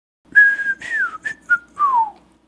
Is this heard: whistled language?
yes